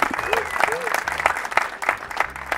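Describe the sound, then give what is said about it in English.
An audience applauds with a dense, steady patter of claps for a guest introduced as a legend. Voices talk over the clapping throughout. “Make some noise for the legend himself, Jordan.”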